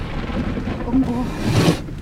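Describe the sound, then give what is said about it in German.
Thunder from a lightning strike rolls as a low, continuous rumble under a hissing wash of noise, swelling briefly around the middle and again near the end. “Der Blitz hat irgendwo eingeschlagen.”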